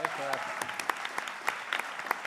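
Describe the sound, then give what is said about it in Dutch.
A short burst of audience applause for a singer, with many crisp, fairly light claps over a steady bed of clapping. A voice is briefly heard at the start. “Mag ik nog een klein, kort applausje ook voor Laurens Luiten. Geweldige stem.”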